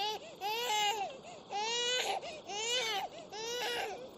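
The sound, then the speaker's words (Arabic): A baby boy cries loudly in four wailing bursts, each rising and falling in a strained, high-pitched sob with short breaths between. “الله، ما بال هذا الصبي لا يكف عن البكاء؟ اتق الله وأحسني إلى صبيك.”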